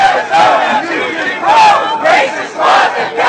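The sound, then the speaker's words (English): Protesters chant in rhythmic shouted phrases outside a baseball stadium before the All-Star Game, a loud, dense crowd of voices rising and falling with each line. “Here's what things sounded like before the game even began as protesters gathered outside the stadium.”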